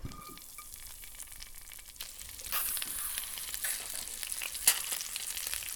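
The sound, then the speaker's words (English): Frozen mealworms frying in oil with a little salt in a flat pan on a burner: a thin sizzle that grows louder and denser partway through, with a sharp pop near the end. “Okay, they're curling in the pan as they fry. No idea how long to fry them for. Oh, they're popping.”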